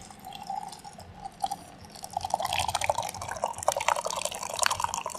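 Liquid pouring and dripping as a canned drink that forms no foam head is poured, heard as a continuous splashing trickle with many small drips, growing louder and busier partway through, with no talking.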